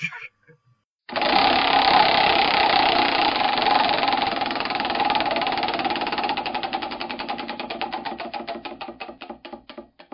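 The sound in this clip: A prize wheel spins with rapid ticking clicks that blur into a dense rattle, then gradually slow and spread apart as the wheel loses speed.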